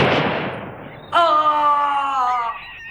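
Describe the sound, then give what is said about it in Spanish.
A single gunshot is fired at a hare during a hunt in a radio drama. The sharp, loud crack decays over about a second and is followed by a voice crying out in a long, sustained wail. “Goffy Cruston, hermano de la duquesa, estando Dorian con él, se dispuso a disparar a una liebre.”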